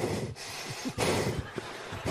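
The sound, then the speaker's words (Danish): A voice imitates heavy breathing into a microphone with a few loud, rough, noisy breaths in quick succession. Each breath is breathy and broad, with short dips between them and no speech. “Det vil i hvert fald ødelægge samtalen rigtig meget, hvis du stønner tungt.”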